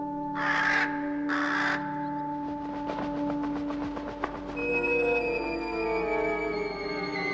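A raven gives two harsh, loud caws in a row. A sustained ringing, tonal texture with rapid pulsing follows and carries on to the end.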